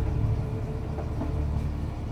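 Riding on the Voodoo Express train: a steady, low, rumbling drone of the moving car that stays even in level throughout, with no voices.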